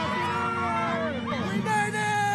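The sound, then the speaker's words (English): Crowd cheering in Times Square on New Year's Eve as the crystal ball drops, with many voices shouting and whooping together in a loud, dense, continuous din. “A giant sparkling New Year's Eve crystal ball came down to start 2024, with confetti raining down on those in Times Square who were cheering, hugging, kissing, and shouting.”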